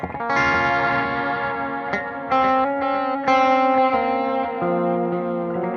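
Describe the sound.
Electric guitar played through a long delay with modulation: sustained, distorted notes ring out and change a few times, each trailing into shimmering, chorus-like repeats that blur together.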